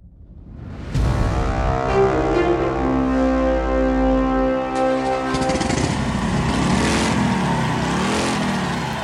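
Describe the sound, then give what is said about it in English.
A 300-pound Harley-Davidson XR750 motorcycle engine, ridden by Evel Knievel at Ontario Motor Speedway, California in 1971, starts with a loud, steady droning roar, then revs up and down in wavering surges. “It's 1971 at the Ontario Motor Speedway in California. The place is packed. Evel Knievel is revving his 300-pound Harley-Davidson XR750.”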